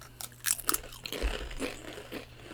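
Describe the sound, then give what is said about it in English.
Faint crisp crunches come as someone bites into a cheese-flavored Dorito tortilla chip during a wine pairing, a few sharp cracks followed by softer chewing. “Now take a bite of your Dorito again.”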